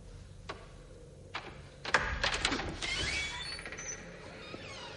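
A door being opened in a supernatural horror thriller scene: a few faint clicks, then a sudden louder burst of mechanical latch and creaking noise, settling into a steady low rumble.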